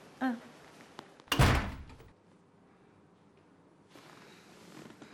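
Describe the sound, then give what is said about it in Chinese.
A door is shut with a single loud, heavy thud that fades quickly into quiet room noise. A brief vocal sound comes just before it. “把门关上。”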